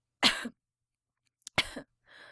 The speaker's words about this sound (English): A weak cough.